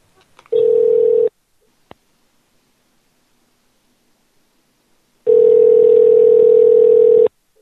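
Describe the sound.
Ringback tone of an outgoing telephone call: two bursts of a steady, buzzy electronic tone, a short one followed by a longer one of about two seconds, separated by near silence with a faint click.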